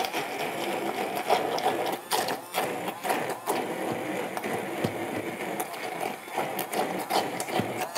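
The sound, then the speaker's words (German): A blender purees cooked parsnip and pepper vegetables with a steady, dense whirring motor and scattered rattling clicks, loud and continuous for the whole stretch. “Und jetzt gebe ich die mal zum Pürieren. Ich lege los.”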